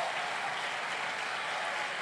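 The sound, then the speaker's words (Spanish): A church audience applauds during a sermon, giving God a round of applause. Soft, even clapping from many hands holds steady with no breaks. “¿Cuánto le dan un aplauso a ese Dios que nos conoce?”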